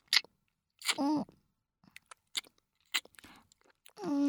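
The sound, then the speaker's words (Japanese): Wet kissing sounds: a few short, smacking lip clicks spaced apart, mixed with soft breathy voiced murmurs, fairly quiet overall. “だからチューしよう。お兄さんのチュー甘くて美味しいからもっとしたくなるの。”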